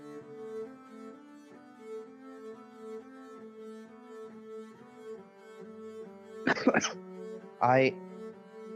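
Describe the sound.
A cough from someone who has taken slightly ill: two short, harsh bursts near the end, heard over soft, steady background music.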